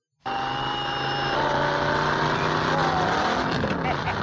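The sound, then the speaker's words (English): A vehicle engine with a multi-speed gearbox starts abruptly and runs loud and continuous. Its whining harmonic tones shift in pitch over the run, with a busier, rougher stretch near the end. “I actually have some audio of what you speak, changing the gears and everything. Are you ready to hear this?”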